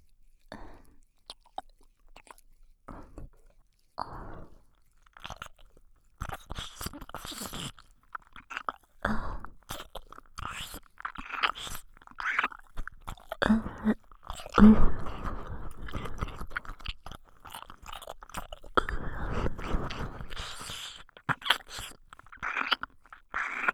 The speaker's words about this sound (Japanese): ここからはもっと激しく、坊ちゃまのお耳の中まで舌を入れて、愛撫させていただきます。